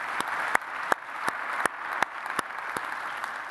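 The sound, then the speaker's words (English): Audience applause welcoming all of the campuses: a steady, dense wash of clapping with a few sharper, louder claps standing out at irregular moments throughout. “would you help me by applause welcome all of our campuses? You get to welcome each other and help me thank those that are online with us right now.”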